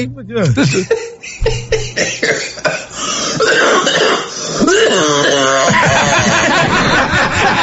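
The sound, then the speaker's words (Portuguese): A man coughs hard several times in rough bursts, then lets out a long, rasping throat-clear with a bleating, wavering quality, loud and close. “Ele vai tossindo, vira um bode.”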